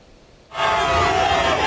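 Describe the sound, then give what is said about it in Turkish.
A crowd outside a hotel in Canada chants to welcome the Turkish national football team before their World Cup match against Australia; after a brief quiet start, loud massed voices burst in and hold steady. “Avustralya ile karşılaşacak olan milliler kalacakları otelin önünde coşkuyla karşılandı. Kendilerini bekleyen kalabalık tezahüratlarla desteğini gösterdi.”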